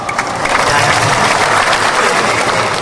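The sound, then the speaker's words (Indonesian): Audience applause breaks out during a religious sermon, a dense, steady wash of many hands clapping at once, loud and even from start to finish with no break. “Jangan tepuk tangan, ini bukan gereja Pantai Kosta.”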